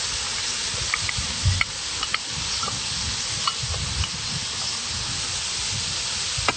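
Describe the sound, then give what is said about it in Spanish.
Tofu sizzles and is stirred in a hot pan as soy sauce is mixed in: a steady hissing fry runs throughout, with a few soft scrapes and clicks of the utensil against the pan. “Mezclamos bien hasta que el soyo se incorpore en el tofu.”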